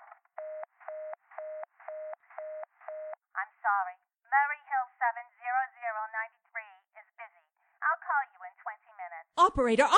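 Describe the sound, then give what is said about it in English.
A telephone number is dialed: several short, evenly spaced electronic beeps sound in a quick row, followed by people talking. “Why you couldn't try to dial Murray Hill 70093 in the same sort of careless way.”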